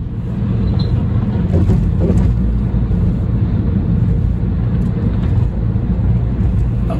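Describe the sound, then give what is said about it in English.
Car driving on the road: a loud, steady rumble of engine and tyre noise that holds evenly throughout, with no talk. “Got to pay attention to driving.”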